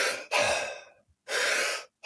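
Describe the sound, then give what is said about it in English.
A demonstration of breathing in and then letting the breath out passively, heard as a few close, clear breathy hisses with no talk. One longer breath fades away gradually, and a steadier one follows after a short silence. “The difference would be if I breathe in and then relax on the exhale,”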